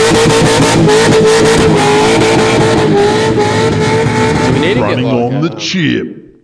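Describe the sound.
Loud, sustained revving of an LS V8 engine held against the rev limiter, a steady harmonic roar for about five seconds before the revs drop and the sound dies away.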